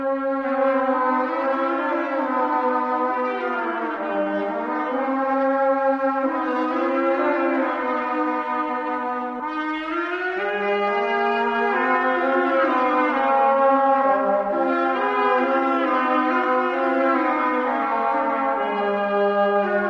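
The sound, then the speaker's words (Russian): Vladimir horn, a Russian shepherd's wooden horn, plays an unaccompanied melody. The tone is bright and reedy, with held notes that step and glide between pitches in a continuous, loud line. “По всей Центральной России прославились своей игрой владимирские пастухи, когда ходили на заработки по разным губерниям. А отсюда и инструмент, на котором они играли, стали называть «Владимирский рожок».”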